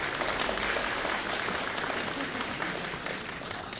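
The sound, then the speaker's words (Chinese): A stand-up comedian is welcomed onto the stage with audience applause. Many hands clap in a steady, dense patter that stays fairly soft and even, easing slightly toward the end. “想不到还真有人鼓掌啊”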